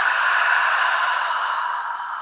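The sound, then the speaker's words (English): A long, deep breath through an open mouth during a guided breathing exercise: a soft, airy hiss that sounds alone and tapers slightly toward the end. “Open the mouth, let it go. Let's do that again. Breathe in. And breathe out.”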